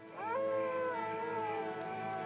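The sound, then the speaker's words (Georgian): A coyote howls at night in the desert, a single long, clear, high-pitched wail that rises briefly at the start, then holds and slowly sinks in pitch. “მათ კოიოტები უერთდებიან.”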